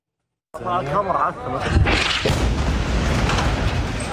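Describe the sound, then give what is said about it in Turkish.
A violent explosion at night in Deir el-Belah, Gaza, bursts in abruptly after a moment of silence, then a loud, sustained roar and rumble with crackling noise carries to the end. “Şiddetli bir patlama yaşandı. Gecenin karanlığını alevler aydınlattı.”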